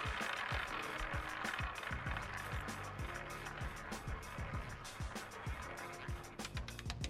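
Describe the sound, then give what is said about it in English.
A prize wheel spins, its rapid clicking ticks running on without pause over several seconds alongside a low rumbling hum, with no voices. “Let's spin the wheel. Spun it.”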